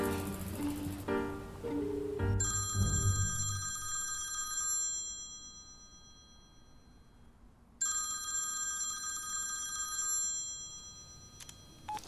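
A telephone rings during a call: two long electronic ring bursts of bright, steady, high-pitched tones, separated by a pause of a few seconds, with no talk over them.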